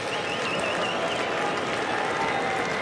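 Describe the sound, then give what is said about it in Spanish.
Baseball stadium crowd applauding and cheering during a game: a dense, even wash of clapping and shouts that holds at one level throughout, with no single voice standing out. “ya se empiezan a escuchar aplausos y gritos aquí en el Progressive Field”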